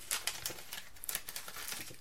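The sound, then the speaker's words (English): Scissors snip off the end of a plastic piping bag while baking: a few quick, crisp cuts mixed with light crinkling of plastic. The sounds are soft and stand alone, with no talk. “And then I literally just use a pair of scissors to just chop off the end bit.”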